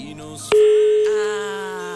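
A telephone tone after a dropped call: one loud, steady tone comes in abruptly and holds to the end, easing slightly in volume.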